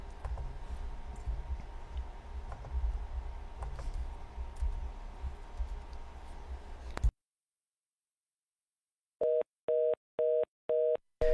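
Fast busy signal on a telephone line: a run of short, evenly spaced mid-pitched beeps in rapid on-off rhythm, following several seconds of hissy line noise and a brief silence.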